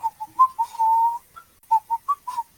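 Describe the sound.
A man idly whistles a tune to himself during a game session, a quiet string of short bright notes broken by one longer held tone and a brief pause, with no other sound around it.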